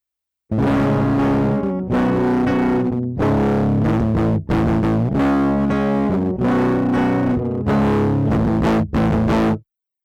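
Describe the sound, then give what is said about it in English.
Distortion effect applied to the low frequencies of a split direct-input instrument signal, giving gritty, buzzing sustained tones in a few long, loud phrases separated by brief gaps. “So here's what it sounds like when we distort the low frequencies.”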